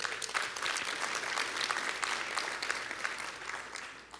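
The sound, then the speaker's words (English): An audience claps in sustained, dense applause, many hands together at a fairly low level, easing off slightly toward the end. “Give them a big hand.”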